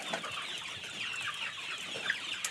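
Chickens cluck in a coop during an evening check, a faint, continuous murmur of soft clucks with a few brief, sharper calls rising above it.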